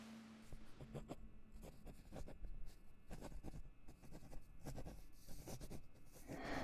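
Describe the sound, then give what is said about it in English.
A pen scratches across paper while someone writes out a tardy slip, producing many short, faint strokes in an uneven rhythm with no talking. “I'll write you a tardy slip, and then you are to go directly to your classroom.”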